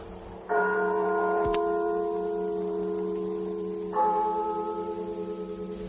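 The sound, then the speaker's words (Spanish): Church bells tolling a death knell at night on the eve of the dead, two resonant strikes about three seconds apart, each with a long humming decay that fades slowly. “Me despertó a no sé qué hora. El doble de las campanas.”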